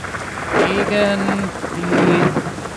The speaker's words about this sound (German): es ist windig, es ist nass, es ist sehr laut. Meine Noise-Canceling-Kopfhörer haben im Grunde genommen keine Chance